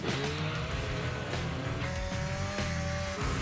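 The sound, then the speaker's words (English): A snowmobile engine runs on a morning commute from home to work over streets and a lake, giving a loud, continuous motor whine over a low rumble, with no voices. “Pretty unique that I can drive a snowmobile from my house to where I work.”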